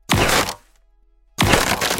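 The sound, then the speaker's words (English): Cracking and crunching as something hard is broken apart by big tail swipes. Two loud, noisy bursts are separated by a short silence, and the second runs to the end. “With big swipes of your tail, you start to crack and shatter it, bit by bit.”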